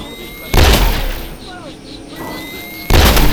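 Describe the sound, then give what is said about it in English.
Two loud, booming gunshots fired to blast a hole through a barrier where turbines are running, about two seconds apart, each followed by a brief noisy tail, with a steady mechanical hum between them. “Back up. I'm gonna shoot a hole through.”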